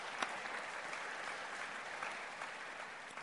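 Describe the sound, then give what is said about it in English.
An audience at a morning gathering applauds a fundraising success, with steady, continuous clapping from many hands that stays faint and even throughout, without voices rising above it. “So let's give her a big hand.”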